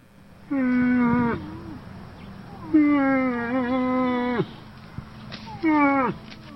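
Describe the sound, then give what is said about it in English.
A female moose calls three times in loud, drawn-out moans. Each call is rich in overtones, wavers in pitch and dips at its end, and the middle call is the longest, with short gaps of quiet between them. “This is the call of a female moose. Moose are the largest members of the deer family.”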